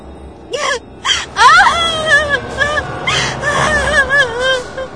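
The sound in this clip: A woman wails and cries out loudly in frightened, sobbing anguish. Repeated bursts of high, wavering cries rise and fall, broken by sharp gasps between them.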